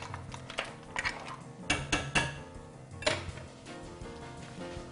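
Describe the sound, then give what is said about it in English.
A metal spoon stirring crab meat, about half a cup, into a cooking pot, giving a few scattered clinks and scrapes against the pot at an uneven pace, with no talking. “Go ahead, add your crab. This is about a half a cup. Give it a little stir.”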